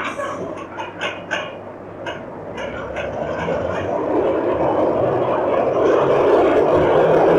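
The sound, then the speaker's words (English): Train departing from a station, a broad rumbling noise that swells steadily louder through the second half, with a few short knocks and faint sounds early on. “When's the next train to Piccadilly? There's one leaving right now.”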